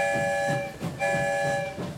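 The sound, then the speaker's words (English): A train whistle sounds as the train leaves the station: two sustained multi-tone blasts separated by a brief gap, fairly faint, over a low rhythmic rumble of the train. “We're about to leave the station, and you know what that means. We're going someplace new. One whistle, we're on our way.”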